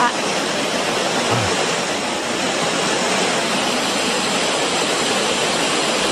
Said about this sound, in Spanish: Oh, bueno, ese ruido rosa, pues a mí no me relaja nada